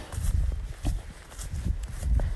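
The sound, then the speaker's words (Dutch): Footsteps of a person out walking, a few soft, low thuds at an unhurried pace with faint rustling and outdoor noise between the steps. “mocht je denken, wat hoor ik voor geluid? Ik ben aan het wandelen”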